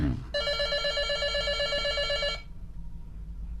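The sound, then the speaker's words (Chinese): A telephone rings once in a bright, steady electronic trill that lasts about two seconds and then stops, leaving quiet background hum. “好，来电话来了。”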